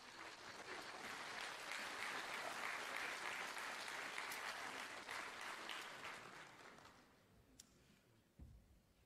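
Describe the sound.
An audience applauds to welcome guests onto a stage in the morning, with dense, steady clapping that holds for several seconds and then thins out and fades, followed by a brief thump near the end.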